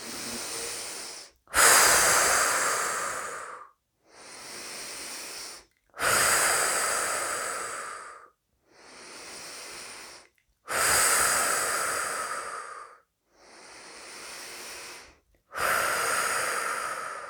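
Slow, deep breathing during a guided meditation: seven long, airy breaths of about two seconds each, alternating stronger and softer, separated by short silent pauses, with no talking.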